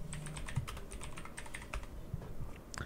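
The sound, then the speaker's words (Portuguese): Keystrokes from a computer keyboard as someone types a Google search, many quick, irregular clicks of varying strength, heard alone without talk. “Escreve aí no Google. Eleições UOL 2022 SP.”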